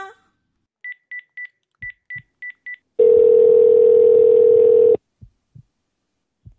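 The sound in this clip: Telephone keypad dialing tones as a call is placed to the police: six quick, evenly spaced beeps, then a steady tone held for about two seconds, with a few soft low thumps before and after.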